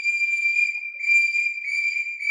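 A boatswain's whistle pipes all hands on deck during a man-overboard alarm aboard ship. It is one shrill, high, sustained tone with a slight waver, held steadily for the whole clip with no voices.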